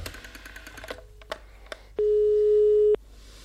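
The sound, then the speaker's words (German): Telephone line tones during a phone call: a short steady beep, a few clicks, then a longer pure tone lasting about a second before it cuts off abruptly. “Balke mit Taschentuch vor dem Mund am Telefon.”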